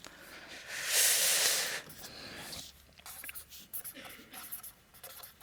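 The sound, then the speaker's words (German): Handwriting: faint scratching of a pen on a surface, beginning with one longer sweeping stroke and followed by many short, uneven scratches. “Kleine Pause für C3 Lingo, weil ich jetzt auf Englisch schreibe.”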